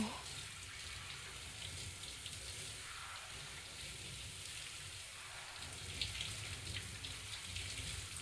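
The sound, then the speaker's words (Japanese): Water streams steadily while body soap is rinsed off during a wash, a constant, even splashing hiss with no pauses or breaks. “さ、もう少し流して。”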